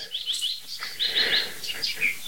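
Birdsong including tits: many short, high chirps and tweets in quick, irregular succession, fairly faint, with no voices.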